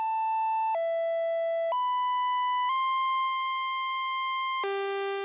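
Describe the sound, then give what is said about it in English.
Synthesizer sine tones held by a sequencer step through five sustained pitches, each changing gradually. The tones dip, climb twice, then drop to a lower, buzzier tone at the end. “I have a little sequencer here that's changing the pitches very gradually. And I can start manipulating the shape of these sounds.”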